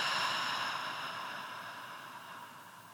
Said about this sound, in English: Inhale through the nose. And exhale through the mouth.